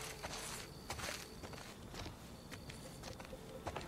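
Footsteps walk through grass at dusk, a steady run of many soft, swishing, crunchy steps at an even walking pace, with no voices.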